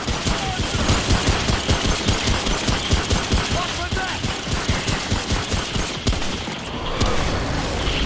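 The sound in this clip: Rapid pistol fire in a shooter video game: many sharp shots in a quick, steady rhythm, loud and dense throughout.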